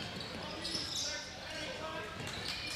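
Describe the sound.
A basketball is dribbled on the court during a game between Brown City and Ubley, with repeated bounces blending into a steady wash of crowd noise.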